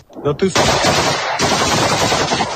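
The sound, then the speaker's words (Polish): A machine gun fires a long, loud, rapid burst in online video of a Ukrainian soldier being shot by Russians, preceded by a brief shouted voice. “Okrzyk chwała Ukrainie, a potem seria z karabinu maszynowego.”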